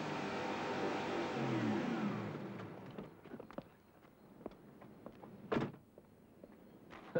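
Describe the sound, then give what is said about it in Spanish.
A car wheel spinning in place gives a rough, loud whirring roar for about two seconds, then fades into scattered clicks and knocks from the car. “Una rueda que patina.”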